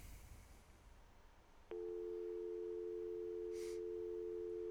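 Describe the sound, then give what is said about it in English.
Steady telephone dial tone, a continuous even hum that starts abruptly after a faint hiss and holds unchanged at a constant level to the end. “Now, kids, the sound you heard there at the beginning was a dial tone. When you used to pick up a phone, it would make this sound before you started dialing a phone number.”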